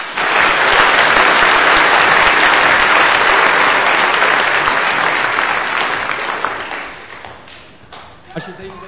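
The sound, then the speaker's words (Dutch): Applause from a church audience for its graduates: loud, continuous clapping from many hands that gradually thins and fades toward the end. “En er hoort natuurlijk een klein applausje bij.”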